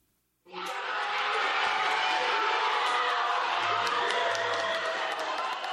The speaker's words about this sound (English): Workers cheered as the results of their vote were announced.